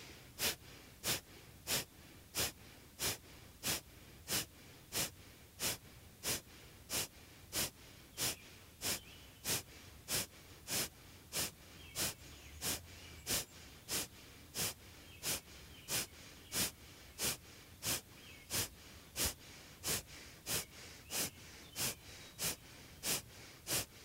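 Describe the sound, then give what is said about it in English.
Forceful nasal exhalations of Kapalabhati yoga breathing repeat in a steady, even rhythm: many short, sharp puffs of air, alone with no talk. “Come up, and we'll do another round of Kapalabhati.”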